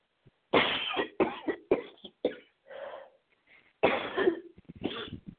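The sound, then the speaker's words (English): Harsh coughing erupts in a fit: many loud, abrupt bursts in an uneven rhythm, a brief lull with a few weaker coughs, then another strong cluster of coughs. “excuse me, there goes that cough I tried to hold back.”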